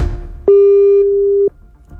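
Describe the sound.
A single steady telephone call tone, heard while a phone call is being placed, holds one constant mid pitch for about a second. It sounds alone, with only faint background noise before and after.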